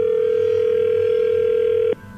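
A steady telephone tone holds for about two seconds and then cuts off abruptly, heard while a call is being redialed.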